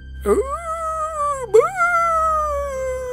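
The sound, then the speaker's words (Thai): Dogs kept at a rural garden home howl one after another. There are two long howls, each starting with a quick upward sweep before settling into a steady, slowly falling tone. The second howl follows the first after about a second. “เสียงหมาหอนก็เกิดขึ้นเสียงมันดังหอนส่งกันมาเป็นทอดๆ”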